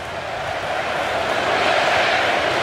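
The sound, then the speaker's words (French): American crowd cheering in a Los Angeles football stadium, a dense, steady roar of many voices that swells slightly and holds. “Écoutez-moi, ces encouragements du public américain. Grosse, grosse ambiance dans ce stade de Los Angeles.”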